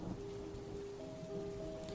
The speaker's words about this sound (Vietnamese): vậy mà bây giờ thậm chí còn mưa lớn hơn lúc vừa đặt chân đến đây. Sấm sét nổ từng hồi rền vang